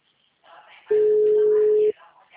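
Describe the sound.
A telephone busy signal, a single steady electronic tone lasting about a second, with faint talk just before and after it.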